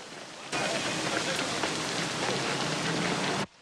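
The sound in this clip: Heavy, teeming rain pours down in a dense, steady hiss that starts abruptly, holds at an even loud level for about three seconds, then cuts off sharply.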